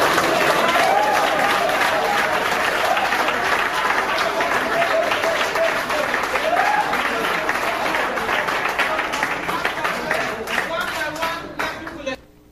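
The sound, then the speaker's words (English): An audience applauds with dense, sustained clapping and some voices mixed in, holding steady for most of the stretch before tapering off and stopping abruptly at the end. “the reason that they were applauding and that I was so shocked is they thought we were going to take the books back after we let them use them”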